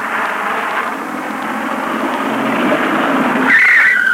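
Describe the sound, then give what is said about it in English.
A car brakes hard and skids on a dusty road: a broad rush of engine and road noise builds, then ends in a brief high tire squeal, with no voices. “Do you have to brake like that? You've smothered us with dust.”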